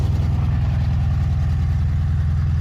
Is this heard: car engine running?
yes